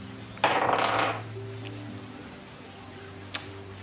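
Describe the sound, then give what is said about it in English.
A die is rolled, making a short rattling clatter that lasts under a second, then quiet, followed by a single sharp click. “I'm going to roll a dice.”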